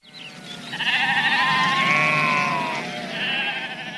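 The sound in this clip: Sheep bleating: one long wavering, quavering bleat held for about two seconds, then a shorter second bleat, loud and clear with no talk over it.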